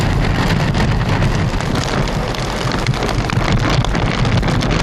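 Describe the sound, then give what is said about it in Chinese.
Heavy typhoon rain pours down at Hang Fa Chuen, a dense, unbroken roar with gusts of wind noise buffeting the microphone. It stays loud and steady from start to finish, with no voices. “向来容易受风的杏花村相对平静，不过还是不时下起大雨。”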